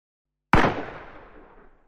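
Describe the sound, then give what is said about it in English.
A single sharp gunshot goes off inside a house. After a brief silence comes an abrupt loud crack, followed by a fading echoing tail that dies away over about a second. “That shot came from inside the house.”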